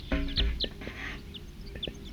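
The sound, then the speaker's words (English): Wild birds calling, a scatter of short, high chirps and clucking notes. They repeat at irregular intervals, fairly faint and unaccompanied by speech. “Wild birds, 40 calling there. Stop. They're recording wild birds.”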